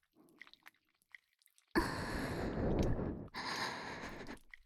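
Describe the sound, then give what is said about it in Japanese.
Wet, sticky squelching of massage oil on skin: a dense continuous squish lasting about three seconds with a brief break midway, preceded by a few faint soft clicks. “オイルくちゃくちゃなってすごいでしょ”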